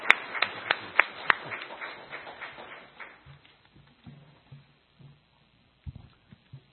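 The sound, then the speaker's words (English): Audience applause welcoming a reverend speaker at a church conference, a burst of clapping with a few sharp, prominent claps that thins out after about three seconds, leaving scattered faint knocks. “所以现在请大家用鼓掌来欢迎我们大会的讲员李秀全牧师。”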